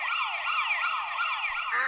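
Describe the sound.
A rapid, warbling siren wail from a police siren duck, a steady high electronic-sounding whoop that sweeps up and down without pause and stays loud throughout, with no talk.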